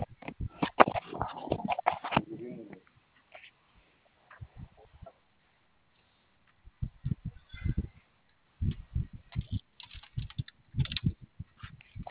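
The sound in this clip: Fingers entering a four-digit code on a keypad: many sharp plastic clicks in irregular bursts separated by short pauses, fairly loud, with no talk over them.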